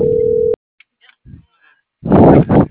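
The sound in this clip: A telephone tone after an unanswered call: one steady, mid-pitched tone lasting about half a second, then cut off into silence, followed after a pause by a loud, noisy burst of sound.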